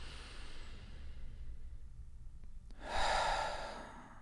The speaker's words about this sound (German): Ich atme irgendwie natürlich durch die Nase ein und den Mund wieder aus.